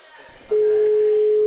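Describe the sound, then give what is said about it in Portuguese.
Telephone ringback tone on an unanswered call: after a short stretch of faint murmur, a steady single-pitched electronic tone cuts in abruptly and holds, loud and unbroken, to the end. “Mano, eu tô só ligando, ninguém tá atendendo não.”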